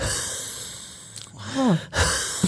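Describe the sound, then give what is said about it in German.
A voice imitating the whistling wheeze of obstructive bronchitis on exhaling: a strained, pressed breath out that carries a brief tonal whistle falling in pitch, followed by a short breathy puff. “dass man wirklich dieses Pfeifgeräusch hört beim Ausatmen, dieses Pressen.”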